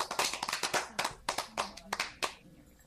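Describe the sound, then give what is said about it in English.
A small group claps by hand in a quick, uneven burst of sharp, separate claps that thin out and stop near the end. “We got to give you the clap for that.”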